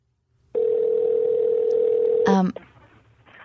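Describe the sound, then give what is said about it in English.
Telephone dial tone while a call is being placed: a loud, steady, unbroken tone lasting about two seconds, cut off by a brief burst of electronic sound, then faint talk. “Let's call this mystery guest right now.”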